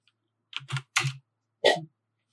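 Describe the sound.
Typing on a computer keyboard gives a few separate bursts of key clatter, fairly loud against silence, with one last burst after a short pause.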